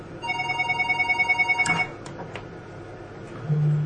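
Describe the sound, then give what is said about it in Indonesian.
A telephone rings with a rapid, warbling electronic trill that pulses many times for about a second and a half, then stops, leaving a few faint clicks and a low hum with no one speaking. “Ayo kita angkat telepon dulu.”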